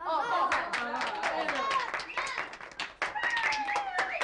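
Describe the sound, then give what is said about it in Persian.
Children in a classroom clapping after being urged to applaud. Scattered, uneven handclaps are mixed with a lot of children's chatter and voices. “چرا تشویق نمی کنید”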